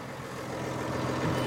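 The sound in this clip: A tractor engine runs as it is put into gear. It makes a steady, dense rumble that grows slightly louder toward the end, with no voices over it.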